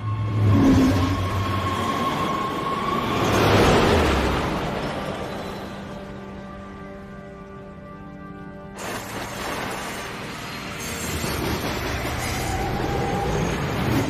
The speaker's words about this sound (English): The doors close and the train leaves, rattling along the tracks.